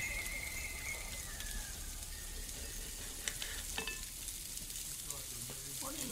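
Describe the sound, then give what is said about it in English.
Wet livers sizzle in a hot frying pan, a steady, dense crackle of spitting fat with scattered louder pops throughout and no talking. “The half-forgotten smell of blood as wet livers kiss the pan.”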